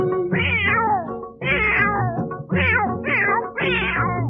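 A cat meows five times in a row, with long, whining, mid-pitched calls and barely a pause between them, heard alone.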